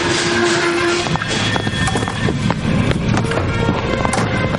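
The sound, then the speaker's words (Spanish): A railway train slowing down to a stop: a loud, steady, rumbling roar with many irregular metallic clacks and rattles, and no voices. “El ferrocarril reduce la marcha hasta detenerse.”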